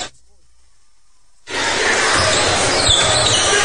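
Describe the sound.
Basketball dribbled on a court during a game: thudding bounces under loud, steady gym noise that starts abruptly after a moment of near silence.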